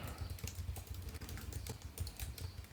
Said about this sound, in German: Du tippst fleißig.